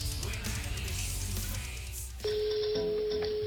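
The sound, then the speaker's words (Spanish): A steady telephone ringing tone on an outgoing call to Oleiros, A Coruña, cuts in just after two seconds and holds one even pitch to the end, following a dense, busy opening. “Amigo, estamos llamando a Oleiros La Coruña.”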